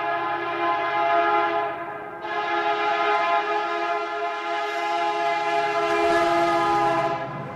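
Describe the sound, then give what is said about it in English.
A freight train hauling tank cars of Alberta oil through a town sounds a long, loud, chord-like horn with a brief dip near the start, then holds steady over a low rumble. “the safety of the rails that run through the town. As trains made longer with the addition of tank cars of Alberta Oil snake their way”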